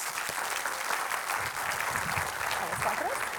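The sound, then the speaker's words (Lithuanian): An audience applauds to welcome a guest onto a Lithuanian talk show. The clapping is dense and continuous for the whole stretch, with a voice faintly heard under it. “Viktorija Čmilytė Nilsen, pasitikime plojimais.”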